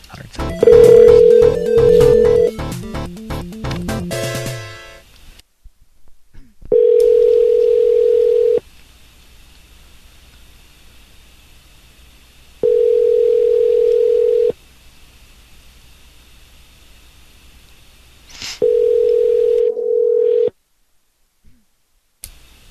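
A telephone call is dialed: a quick run of touch-tone beeps and a dial tone, then three long, steady ringing tones separated by silence.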